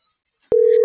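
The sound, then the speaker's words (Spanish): Telephone busy tone after dialing another number: half a second of silence, then a single steady, loud mid-pitched tone that starts with a click and runs to the end. “No, pues ya le estoy marcando a alguien más.”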